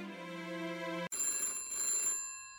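A telephone rings for an incoming call, with continuous bright, buzzing electronic ringing. It breaks off abruptly once, then resumes in a higher, sharper ring with no talk over it.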